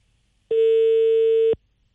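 A single steady telephone line tone sounds for about one second and then stops, on a call to a traffic police office that goes unanswered. The tone is clean and loud against near silence.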